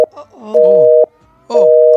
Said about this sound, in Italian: Occupato. E allora noi rifacciamo dunque la chiamata.